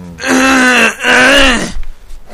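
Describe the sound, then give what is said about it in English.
Throat clearing, two loud, drawn-out voiced rasps in quick succession with a brief dip between them, followed by faint rustling. “That's the only time I'm going to clear my throat.”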